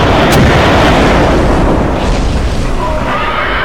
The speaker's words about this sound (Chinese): 于是三人把空气炮从射击孔伸了出去，开始射击。